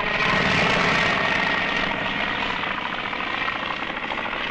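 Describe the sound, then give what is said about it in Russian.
Propeller engine drone of a U-2 biplane taking off from a dusty field: a loud, steady, throbbing roar that holds throughout and eases slightly toward the end. “Подняв пыль, У-2 начинает разбег. Взлетает.”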